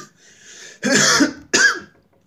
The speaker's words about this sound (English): It's a marijuana cough, not a corona cough.